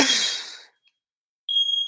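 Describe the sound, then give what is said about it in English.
A smoke detector going off, heard as a single piercing, high electronic beep that starts abruptly near the end, after a short breathy rush of noise and a stretch of silence. “my smoke detector's going off just again. I hope I can ignore that.”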